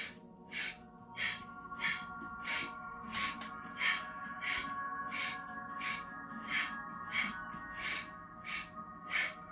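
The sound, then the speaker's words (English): Rapid rhythmic breathing during a breathing exercise: many short, forceful breaths at an even quick pace, each a sharp airy burst, over a steady tonal drone in the background. “Inhale, exhale, exhale.”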